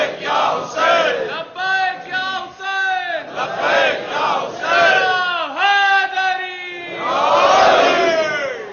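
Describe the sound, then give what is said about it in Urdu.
Many voices chant a religious slogan invoking a holy name in loud, drawn-out unison shouts with sliding pitch. Several repeated calls follow one another steadily and carry no other talk. “نام کا نعرہ مستقل لگ رہا ہے”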